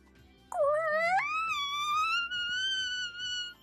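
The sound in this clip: A voice imitates a high-pitched whine: one continuous tone that starts suddenly, steps upward in pitch early on, then holds a steady, loud whine for about three seconds with no other sounds.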